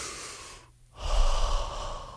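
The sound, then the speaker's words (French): Deep breath being taken: after a brief dip, a single long, noisy intake of air swells and holds over a steady background hiss and low rumble, with no speech over it. “prends une respiration”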